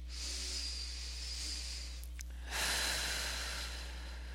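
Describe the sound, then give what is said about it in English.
Slow, relaxed breathing during a seated relaxation exercise: two long, soft airy breaths, separated by a short pause, over a steady low electrical hum. “Take a few slow, relaxed breaths to settle in.”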